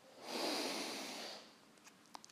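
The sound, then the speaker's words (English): Slow, deep breath taken during a guided relaxation exercise: one long, airy whoosh that swells, holds for about a second and fades away. A few faint clicks follow. “So inhale and exhale. Inhale.”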